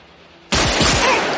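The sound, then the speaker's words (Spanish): Gunfire at point-blank range as a robber shoots a guard during a crime-thriller heist. Near-silence breaks into a sudden loud blast at about half a second, and dense crackling noise stays loud through to the end. “Le dispara a bocajarro y le remata en el suelo.”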